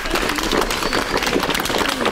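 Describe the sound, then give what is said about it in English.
Audience applause after a film screening and question session in Darwin. Dense clapping from a crowd holds steady through the brief moment. “So one more big round of applause for Manu and Terry.”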